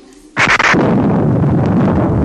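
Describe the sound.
Flames burst up in a radio drama sound effect: a sudden loud whooshing blast, followed by a sustained, rumbling fiery roar that continues to the end.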